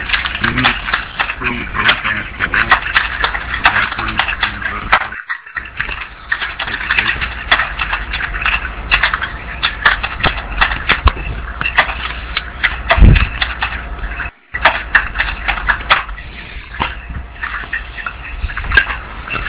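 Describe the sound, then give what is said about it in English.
Fast typing on a keyboard right next to a microphone: many rapid, dense clicks keep going throughout, with talk partly running underneath. “Stop typing with your microphone.”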